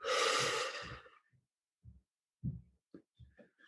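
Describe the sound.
A slow, deep breath during a guided meditation: a soft, breathy rush of air lasting about a second, then a few faint low thumps in the quiet that follows.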